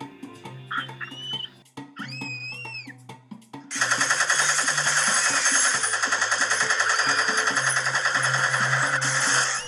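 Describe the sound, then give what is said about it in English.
A homemade machine gun firing in a rapid, continuous rattle of closely spaced shots, loud and unbroken for about six seconds after a few seconds of other tonal sounds. “But this time, he's got a homemade machine gun.”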